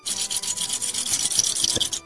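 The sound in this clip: Small pieces of ostrich eggshell are polished by hand into round shapes. The rubbing makes a steady, bright rasp with quick repeated strokes and no voices.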